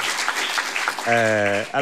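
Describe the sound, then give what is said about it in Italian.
An audience applauds with continuous clapping, and a voice talks over it partway through. “Anzi, fate un applauso così è vero che siete qua.”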